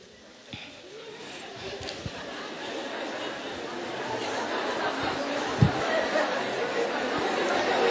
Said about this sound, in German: Jetzt hört man gerade, wie die vielen jungen Menschen sich gegenseitig Komplimente geben